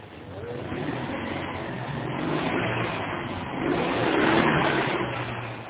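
A car starts noisily and drives off, a steady muffled engine rumble with broad road noise that swells slightly as it pulls away.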